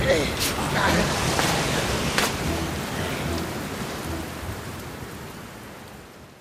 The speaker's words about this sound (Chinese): 阿福哥的皮被雨水打湿了，来来来，穿上雨衣